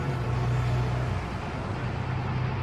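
A car driving fast criss-cross through city streets to shake off pursuers, heard as a steady low engine drone with constant road rumble and no clear breaks.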